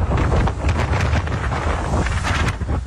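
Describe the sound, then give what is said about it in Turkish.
Strong wind during a cold snap with rain in Istanbul: a steady, buffeting roar with a heavy low rumble and gusty surges throughout, with no voices. “Yer yer yağmur ve kuvvetli rüzgar etkili oldu.”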